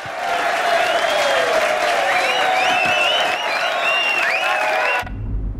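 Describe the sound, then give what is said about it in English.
An audience of servicemen cheers, whistles and applauds loudly at a wartime stage show with can-can dancers and nude posing performers. The dense roar of clapping and shouting stays steady for about five seconds, then cuts off abruptly. “On the stage, curtains draw apart behind the Deerings and the can-can dancers to reveal four of the Millerettes nude, posing in front of a backdrop of London. The audience of servicemen erupts with enthusiasm.”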